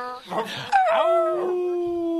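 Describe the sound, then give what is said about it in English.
A person imitates a big dog with a voice: a short gruff burst, then a long drawn-out howl that settles onto a steady pitch and fades slightly at the end. “Now be a big doggy barking. Howl at the moon if you want to.”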